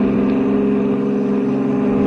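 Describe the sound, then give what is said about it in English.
A Nash car accelerates away with a steady, loud droning engine hum that holds level throughout. “took off in Corey's Nash”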